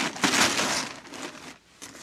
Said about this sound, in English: lean back so I can cut the string. There it is.